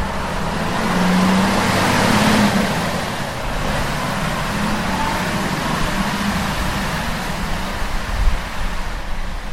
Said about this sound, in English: there seems to be some kind of vehicle with flashy lights up here. Snow sweeper or something, maybe.